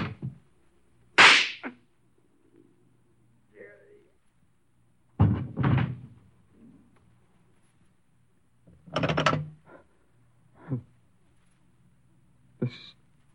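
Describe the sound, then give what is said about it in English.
A gunshot fired in room 1101 of a radio drama: one sharp, loud crack near the start, followed later by several more heavy bursts of sound, with voices speaking between them. “This is Mr. Bromley in room 1101. I just shot a man.”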